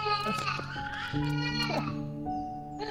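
A young child crying, a sustained tonal wail whose pitch wavers and shifts throughout, steady and fairly loud with no break.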